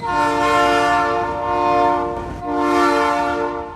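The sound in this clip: A freight train heading north near the Mexico–Guatemala border sounds its horn in two long, loud, steady blasts separated by a brief dip.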